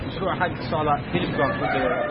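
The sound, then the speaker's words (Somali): Chickens and a rooster crowing at a poultry farm: a dense, continuous jumble of clucking and crowing calls blending into a steady, dull-toned flock noise with no clear pauses. “goobta digaaga lagu xanaaneeyo ee ku taala degmada Carmo waa xarun weyn oo lagu diyaariyay qalabka lagu dilaaciyo ukumaha”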